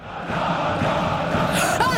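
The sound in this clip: A crowd of Malmö FF football supporters roars, a dense and sustained wall of voices with overlapping shouts throughout.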